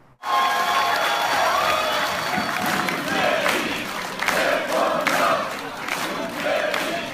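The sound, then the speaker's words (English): Supporters of Moon Jae-in cheer at his party headquarters in Seoul, with crowd noise and clapping under them, and a rhythmic chant of his name grows stronger in the second half. “Here's the sound of some of Moon's supporters at his party headquarters.”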